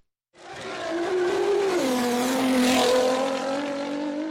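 Sports cars and motorcycles racing at an event in Peshawar, Khyber Pakhtunkhwa: a loud, sustained high-revving engine roar that starts abruptly, dips briefly in pitch midway, then holds strong to the end.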